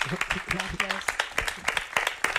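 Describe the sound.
Scattered audience claps greet two sound artisans on a programme, sharp irregular hand strikes that rise and fall under a talking voice.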